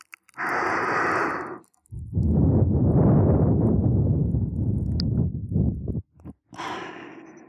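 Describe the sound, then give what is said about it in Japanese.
Soft breath blown into the ear after ear cleaning: gentle, airy puffs of blowing, one long steady exhale between shorter ones, alone with no talking. “お耳をお掃除した後、ついふうしちゃうんですよ。”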